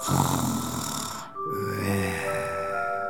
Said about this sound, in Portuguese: E dormia. E roncava.